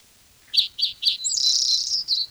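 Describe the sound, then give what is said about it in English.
A black-throated gray warbler sings: three short, high, buzzy notes, then a longer buzzy trilled phrase and a final short note. The song is fairly faint and heard alone. “Black-throated gray warbler in there.”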